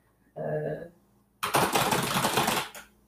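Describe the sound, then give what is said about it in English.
Typing on a loud computer keyboard in an empty room: a dense, rapid clatter of keystrokes lasting over a second, preceded by a brief voice. “I have one of the louder keyboards. It makes me happy. It's very satisfying sound for me.”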